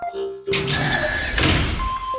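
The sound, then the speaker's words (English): A door shuts with one sudden, loud thud. A wash of noise follows it, and steady tones sound before and after. “Rude! Close door.”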